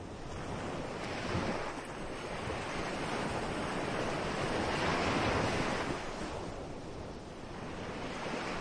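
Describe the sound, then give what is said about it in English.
Ocean waves in Hawaii wash in a continuous rolling surf with gentle swells in loudness, mixed with wind buffeting the microphone, and no voices. “You can hear the waves in the background.”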